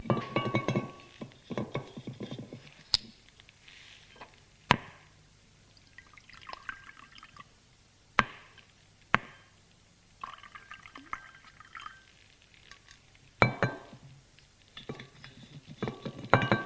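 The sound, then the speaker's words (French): Wine is poured from a carafe into two glasses: faint, intermittent trickling and dripping in several separate bursts, with a few sharp knocks between them. “Va vers la table. Remplis deux verres de vin avec une carafe.”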